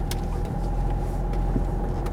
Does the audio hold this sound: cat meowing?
no